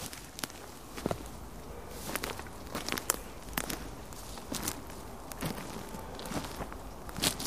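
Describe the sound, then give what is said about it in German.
Footsteps of someone walking back to a seat, heard as many irregular, slightly crunchy steps at a steady walking pace with no voices. “Dann gehe ich mal zurück zu meinem Platz.”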